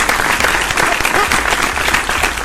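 Steady applause from a crowd greeting a late arrival, dense and continuous for the whole clip with no voices rising above it.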